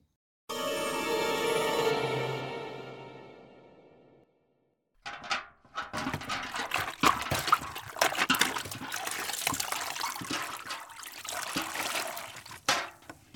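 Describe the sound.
Water pours into a bucket at a well in Guider, a small village in northern Cameroon. After a brief silence, irregular splashing and trickling starts and continues to the end.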